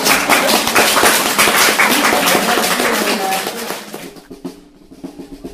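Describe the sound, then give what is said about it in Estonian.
Festive drumming accompanies a museum celebration procession walking to Vallimägi hill in Paide, Estonia. Dense rhythmic beats drive steadily for about four seconds, then thin out to quieter, scattered hits. “Nii ja nüüd, nagu taustal võite kuulda, siis pidulikult trummi põhina saatel liigume Paide Vallimäele.”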